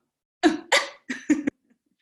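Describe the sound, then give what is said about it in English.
Guttural beatboxing, a voice imitating drum hits with vocal percussion pushed down into the chest and throat: four short, throaty, low bursts in an uneven rhythm, heard alone. “So I translated the like lip stuff into like guttural stuff. So there was a lot of like,”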